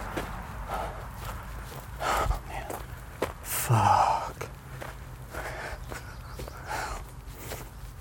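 Footsteps of a runner slowing to a walk during a long-distance run: a steady rhythm of soft, regular steps with a couple of heavy breaths breaking through.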